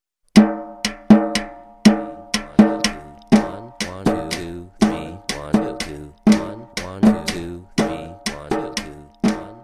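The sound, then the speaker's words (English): Two hand-played beats sound together in a three-against-two polyrhythm: sharp, ringing strikes, some higher and some carrying a deeper thump, repeat at an even, steady pace for many hits, with no talk. “I'm gonna play something, two different evenly spaced beats. One will be three and one will be two.”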